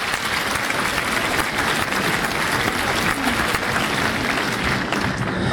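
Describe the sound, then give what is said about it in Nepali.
Audience applause for the winner of a $30 voucher, a dense, steady wash of clapping that holds at an even level throughout with no voices. “बधाई छ तपाईँलाई ताली पड्काउँ श्रोता।”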